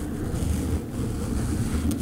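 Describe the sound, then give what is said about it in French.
Wind roars like a snowstorm in the mountains: a dense, continuous rushing noise that stays fairly even, with a brief dip near the middle. “Moi, ça me fait penser à une tempête de neige. Ok. Ouais, du vent dans les montagnes.”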